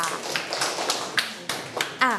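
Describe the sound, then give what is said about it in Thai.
A few separate hand claps in a classroom as pupils applaud a classmate. The claps come as distinct, sharp slaps spread across the moment, with voices talking around them. “ปรบมือให้เพื่อนด้วยค่ะ”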